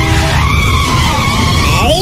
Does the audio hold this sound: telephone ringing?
no